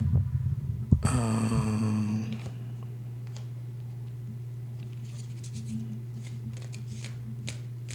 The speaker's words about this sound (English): I'll flip a card.